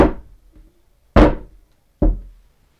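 Knocks imitating a coded door knock: two heavy knocks followed by a lighter one, about a second apart, each sharp with a short decay, with no voices.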